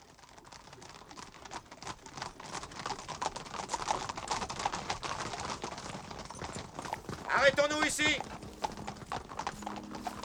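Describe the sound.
Horses' hooves clip-clop steadily as riders arrive at a clearing, a dense, continuous patter of hoofbeats that grows a little louder toward the end.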